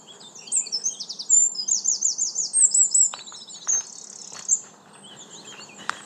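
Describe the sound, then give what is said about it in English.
Birds chirp and twitter in a park beneath a small stand of oak trees in late April, when the oaks are in new leaf. High, rapid calls repeat densely at first, then thin to sparser chirps over a soft, low background hum. “Here's some sounds from my park.”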